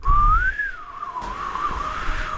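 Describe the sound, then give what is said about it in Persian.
A person whistles a single sustained tone that rises, dips and wavers in a gliding melody, clear and fairly loud, with low rumbling background noise and no talk. “چرا سوت میزنی”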